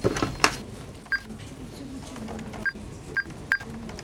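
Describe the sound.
Telephone keypad tones as a number is dialed at a bank counter: a few short, evenly pitched beeps spaced irregularly over a low murmur of background voices.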